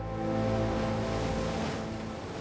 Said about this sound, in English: Other marine iguanas basking on rocks are splashed by the huge waves.